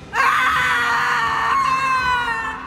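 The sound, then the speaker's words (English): A woman shrieks in despair, one loud, piercing, high-pitched scream held steadily for over two seconds without a break, heard alone. “My mouth unhinges and the wind rushes from me, a gale force of hollow despair. I shriek.”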